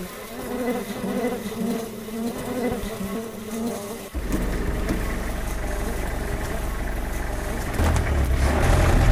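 Car driving along through an open experimental field site: a constant engine drone that suddenly becomes louder and deeper about halfway through, then continues steadily.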